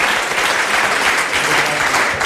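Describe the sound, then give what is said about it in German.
Audience applause at a Union Berlin football club event, a dense, even wash of clapping that holds steady with no breaks. “Ich glaube, das ist auch nochmal ein Applaus wert.”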